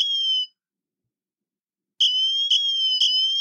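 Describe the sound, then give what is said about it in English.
A piercing, high-pitched siren from the Siren app on an Apple Watch Ultra. A short shrill tone sounds first, then silence, then a loud, steady wail resumes in about three pulsing segments, with no talking. “Okay. So that's the Siren app.”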